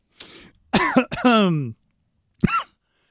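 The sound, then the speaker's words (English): Coughing and throat clearing after air is swallowed the wrong way: a few short, voiced, strained bursts, two close together, then a gap before one last brief cough. “I swallowed air the wrong way.”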